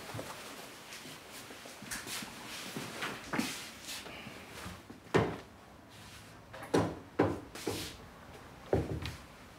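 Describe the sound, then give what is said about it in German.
Things are put away in a cupboard: irregular wooden thuds, knocks and the clatter of doors or drawers opening and closing, several sharper bangs in the second half, fairly faint. “Ich mach dir einfach in den Schrank, okay?”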